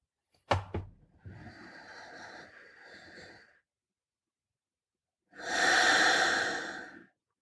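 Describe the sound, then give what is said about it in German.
Deep guided breathing, a long soft inhale and then, after a pause, a louder steady exhale, with no talk. “Lass uns gemeinsam einatmen.”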